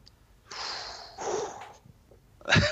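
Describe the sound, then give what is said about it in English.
Several people take deep breaths together, heard as three airy, breathy rushes that are fairly faint with short pauses between them. “Deep breaths, the collective deep breath.”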